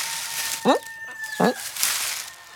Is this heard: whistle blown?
no

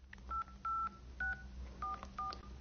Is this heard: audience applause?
no

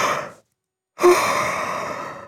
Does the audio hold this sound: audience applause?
no

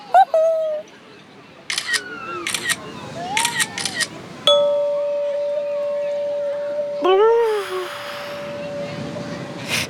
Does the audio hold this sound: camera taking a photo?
yes

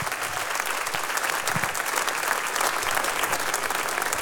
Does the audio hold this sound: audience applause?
yes

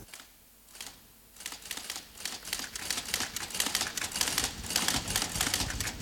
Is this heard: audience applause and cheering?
no

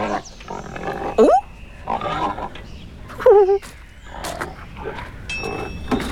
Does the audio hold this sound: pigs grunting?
yes

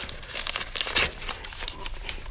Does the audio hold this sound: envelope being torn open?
yes

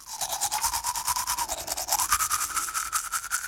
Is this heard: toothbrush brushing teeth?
yes

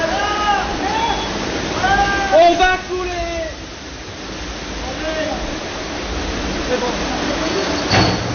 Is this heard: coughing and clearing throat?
no

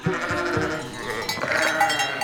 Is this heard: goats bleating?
yes

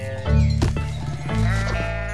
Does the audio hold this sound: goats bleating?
yes

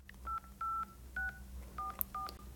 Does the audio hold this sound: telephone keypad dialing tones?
yes

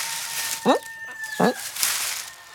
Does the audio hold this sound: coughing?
no

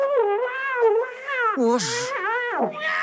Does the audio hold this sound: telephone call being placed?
no

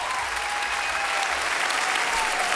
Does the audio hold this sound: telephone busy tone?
no

